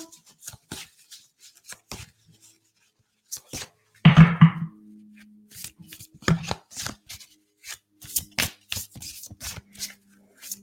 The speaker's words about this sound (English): We're going to go ahead and pull a chakra card now. Let's see what wants to come through.